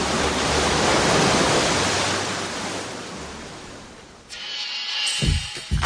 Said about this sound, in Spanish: Y sí, es playa salvaje. Playa Salvaje, donde las rocas golpean al mar.